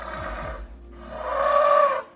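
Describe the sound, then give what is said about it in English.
Heavy breathing of an elephant: two long, breathy, rasping breaths with a low rumbling undertone. The second breath is longer and louder and has a more tonal core. “That noise you just heard was an elephant, a heavy breathing start to the show.”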